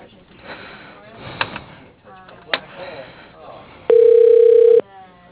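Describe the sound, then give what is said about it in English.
A telephone call is transferred to voicemail over a narrow phone line. Faint voices and a couple of sharp clicks come first, then a loud, steady mid-pitched tone holds for about a second. “let me just put you through to his voicemail.”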